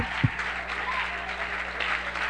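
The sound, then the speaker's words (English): Many hands clapping together in a thick, continuous patter at a steady level, with one low thump near the start. “I clap my hands.”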